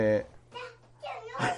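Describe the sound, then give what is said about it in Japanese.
A small child yelling in a room, a few short, high-pitched vocal bursts separated by brief pauses, over a faint steady low hum. “子供がねちょっとギャーギャー言ってますけど”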